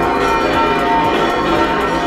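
Cathedral church bells peal during a solemn Galicia Day celebration mass, a dense, continuous wash of overlapping ringing strikes with no pause.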